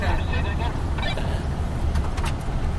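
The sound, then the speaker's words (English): Steady engine and road rumble from a police patrol car driving at night along Orange Street in Newark, a loud, continuous low drone that runs unbroken throughout. “All right, so we're driving along Orange Street on night patrol in Newark.”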